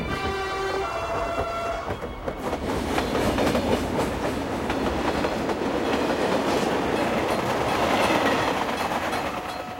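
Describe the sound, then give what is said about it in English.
A passenger train moving through a city at night: a continuous loud rumble with rattling, clattering wheel and carriage noise that holds steady throughout. “Outside, the lights of St. Petersburg twinkle in the night as the train moves through the city.”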